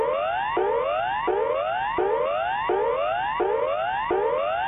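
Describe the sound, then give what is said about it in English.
Standard emergency warning signal blares from a public loudspeaker system during a test in Melbourne's city centre: a loud, unbroken electronic wail of about seven repeating cycles, each sweeping upward in pitch before snapping back low. “The next sound you hear will be the standard emergency warning signal.”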